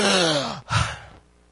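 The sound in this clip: A man's voice imitates another man gasping back to life: a drawn, falling groan-like breath, then a short breathy intake. It is heard alone and fades to quiet.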